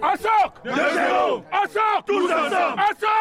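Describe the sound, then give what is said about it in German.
A battle cry chanted on a football pitch in Öhrenfeld by a veterans' football team from Cameroon: loud, rhythmic shouted phrases from many voices in unison, delivered in several strong bursts separated by brief pauses. “Ein ungewöhnlicher Schlachtruf erklingt da auf dem Fußballplatz im Dahlingeröder Ortsteil Öhrenfeld.”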